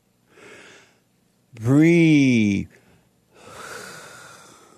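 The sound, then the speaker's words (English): A phone caller breathing heavily and out of breath: a breathy inhale, then a loud, wavering voiced sigh, followed by a long, noisy exhale. “You need to catch your breath.”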